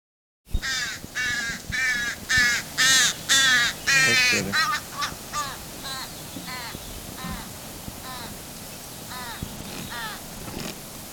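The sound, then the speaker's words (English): A young crow begs while being fed by its parent at the west end of Horse Lake in July. It gives a rapid series of harsh, nasal caws, loud and dense at first, then shorter, softer calls repeating steadily. “That was a young crow being fed by its parent.”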